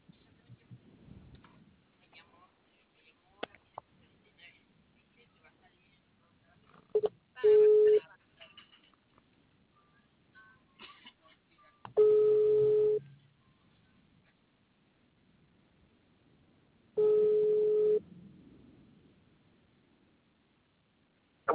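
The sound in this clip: Telephone tones while a call is being placed: three long, steady single-pitch beeps, evenly spaced with quiet gaps between, after some talking at the start.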